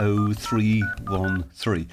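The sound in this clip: Telephone keypad tones sound as a number is dialed, a few short, bright, steady beeps spaced out over about two seconds, mixed with a person speaking.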